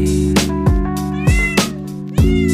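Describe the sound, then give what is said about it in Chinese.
A cat meowing: a series of loud, drawn-out tonal meows in close succession, with no talk. “我舍不得这一只猫，是我的猫。”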